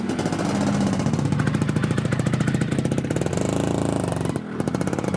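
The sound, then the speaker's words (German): Vespa scooter engine driving away, a loud, sustained buzzing rattle of dense rapid pulses that runs throughout, with a brief dip near the end and no talk. “Jetzt schwingt Marc auf seine Vespa und fährt wieder von dann.”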